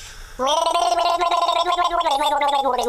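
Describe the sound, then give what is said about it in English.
A person gargles a song tune, a bubbling, wet throat sound with a wavering, melodic pitch that runs continuously and fairly loud after a brief quiet start. “Well, if you want to gargle, feel free. But I'll gargle a tune that apparently Matt's just told me has been brought out again, and I'm really disappointed about it.”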